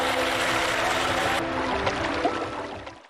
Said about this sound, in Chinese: 好，让水不断的往进灌，大概在喉咙这个位置，稳住身形。